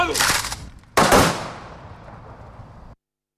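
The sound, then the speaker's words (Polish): Two loud volleys of gunfire ring out as an honorary salute fired by a company from an artillery and armament training centre at a ceremony for the 75th anniversary of the outbreak of World War II. The second volley decays slowly into silence. “75. rocznicy wybuchu II wojny światowej salwę honorową odda kompania z Centrum Szkolenia Artylerii i Uzbrojenia.”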